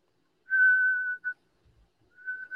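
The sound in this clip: Whistling from a baseball dugout to tip off batters that a fastball is coming: a long, steady, high-pitched whistle, a brief chirp, then another whistle after a pause, clear and alone.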